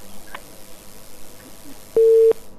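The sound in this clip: A single busy-signal beep on a phone line after a caller was cut off. It is a short, steady mid-pitched tone that stands out clearly above faint line hiss, with no talk.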